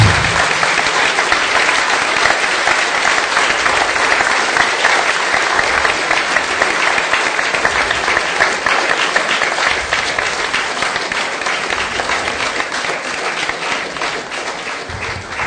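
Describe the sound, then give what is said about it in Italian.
Sustained audience applause at a public talk, dense and steady clapping that holds an even level for the whole stretch with no single voice standing out. “Io vorrei che lo applaudissimo a Ortensio da Spinetoli, almeno”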